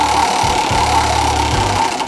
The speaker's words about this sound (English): Let's spin the wheel and see where we're engineering today. Over to Engers to spin the wheel.